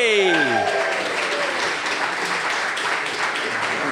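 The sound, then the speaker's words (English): An audience applauds to welcome a comedian guest onto the stage at a live show. Dense, sustained clapping runs the whole way through, opened by a few brief falling musical tones. “Please put your hands together. Welcome to stage, Gary Delaney.”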